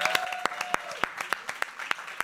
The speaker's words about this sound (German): Großer Applaus für Ufo